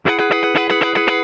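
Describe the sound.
Six-string electric guitar strummed through distortion: a quick, steady run of many loud chord strokes, thick and buzzing, with no voices over it.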